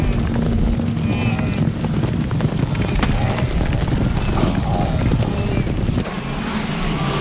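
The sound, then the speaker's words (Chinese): Pounding hooves rumble as a herd of wildebeest charges toward a river, a dense, continuous drumming with no distinct individual steps. The low thunder stays loud and steady, easing only slightly near the end. “在本能驱使下，角马群冲向河流。”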